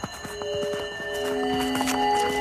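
A horse's hooves clip-clop at a steady walking rhythm on a desert journey, the regular beats sounding under sustained, ringing musical tones.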